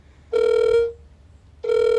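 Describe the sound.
Ringback tone of an outgoing telephone call: a steady mid-pitched electronic ring sounds once, falls silent for a moment, then starts again and is cut off at the end.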